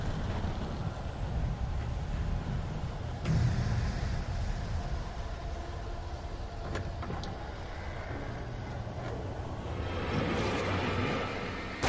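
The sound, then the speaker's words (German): Excavator driving in a video game: a continuous low engine rumble with rattling and grinding texture that stays loud and steady throughout. “Der fährt ein Bagger rein. Äh. Raus.”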